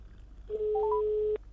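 An outgoing phone call rings while waiting for an answer: a single steady electronic ringback tone lasts under a second, with a few brief higher chirps at its start. It is fairly faint against a quiet background.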